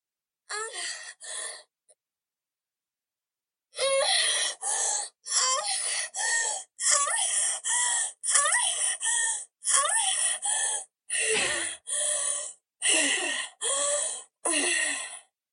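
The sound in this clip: Recorded moaning from a sex doll's built-in sound feature: breathy, high-pitched gasps and moans. An opening pair of sounds and a short pause give way to many short, evenly spaced bursts, heard alone.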